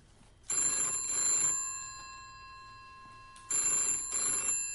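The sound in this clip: A telephone bell rings with a bright, metallic trill in two bursts separated by a pause, the second cut short. The ringing is loud and clear against a quiet background.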